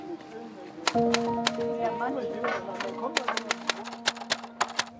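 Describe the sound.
A street poet clacks out a poem to order on a typewriter. Many sharp, quick keystrikes come in uneven bursts, growing denser toward the end, with a voice talking over them.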